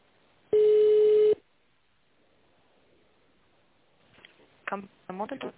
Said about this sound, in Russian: Звонок переводится на вашего менеджера.